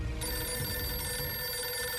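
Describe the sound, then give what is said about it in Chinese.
A telephone ringing with a steady electronic tone that sustains through the whole moment over a faint low rumble, with no voices. “结果不一会儿，黄乔松就接到了赵世林打来的电话”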